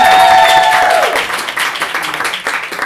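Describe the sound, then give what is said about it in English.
Audience applause at a live storytelling event: loud, dense clapping that thins slightly toward the end. “Round of applause for”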